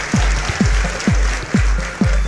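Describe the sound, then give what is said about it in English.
A studio audience applauds in a steady wash of clapping, with a series of rhythmic low thumps running beneath it. “So that's our studio audience that we have every episode. And we're live. They're very appreciative and starved for entertainment.”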